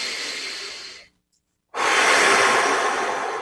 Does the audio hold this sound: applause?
no